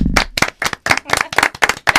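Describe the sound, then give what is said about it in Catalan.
A small group claps for a first-time guest on a Catalan radio show. Many brisk, sharp claps land in quick, uneven succession and stand out loudly against silence. “sempre la primera vegada davant del micro costa una mica i, per tant, un altre aplaudiment.”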